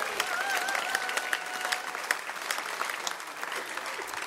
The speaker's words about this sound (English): And we have a great audience with us this evening. Give yourselves a big hand.